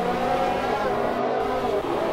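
A McLaren race car's engine roars during a motor race, a loud, steady droning whine that holds a nearly constant pitch for the whole stretch.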